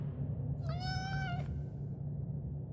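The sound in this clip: A cat gives a single drawn-out meow over a steady low rumble, with no voices.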